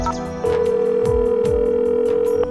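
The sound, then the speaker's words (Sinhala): A steady telephone tone from an outgoing morning call, switching on after a short pause and holding at one even pitch for about two seconds before cutting off, with no voices. “ඒ නිසා ශනුලි කල්පනා කරලා උදෙන්ම විසල්ට call එකක් ගත්තා.”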